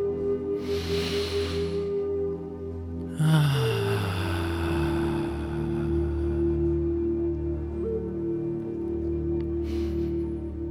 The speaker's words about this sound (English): And when we exhale, let's exhale completely and make a soft ah when we exhale. Let's do it together, deep inhale.